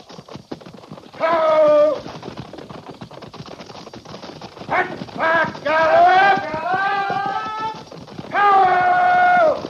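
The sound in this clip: Horses trotting, a steady clatter of hooves throughout, while a man's voice shouts commands over them in several bursts.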